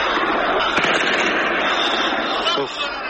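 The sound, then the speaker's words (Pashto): Kalashnikov rifle fire aimed at the Buddha statues in Bamiyan: a dense, continuous burst of loud cracking shots with a few sharper reports standing out, with voices mixed in throughout. “په ټولنیزو رسنیو دی خبرې سوي ویډیو کې ښکاري چې شاوخوا لاس کسان له بیلابیلو اړخونو د بودا په مجسمو د کلاشینکوف ډزې کوي.”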